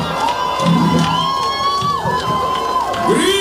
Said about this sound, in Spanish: Euforia! Escute a público!